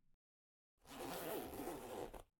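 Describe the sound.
A trouser zipper is pulled down in one smooth, continuous rasp lasting just over a second, soft and alone with no talk.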